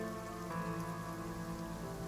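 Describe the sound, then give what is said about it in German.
Rain falling steadily from the sky: a faint, even patter that continues without break beneath a sustained tonal drone of music. “Der Regen, der vom Himmel fällt, verwäscht das Blut, das auf der Straße liegt.”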